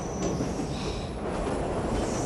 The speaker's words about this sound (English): Del waves through the window as the train pulls out.